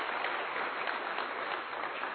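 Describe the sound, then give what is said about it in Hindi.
Dense audience applause honouring a woman at a sports-related gathering: a loud, steady crackle of many hands that holds for about two seconds with no voices over it. “Once again एक बार जोरदार तालियां दीदी जी के लिए।”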